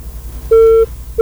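A disconnected phone line gives off a tone: a loud, clean mid-pitched beep lasting about a third of a second, followed by the start of a second beep that is cut off at the end.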